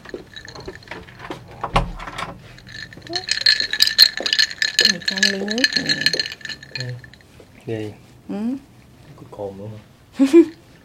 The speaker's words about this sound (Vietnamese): Nước nếp lên men rồi, chuẩn bị cho khách mời một ly nước có cồn.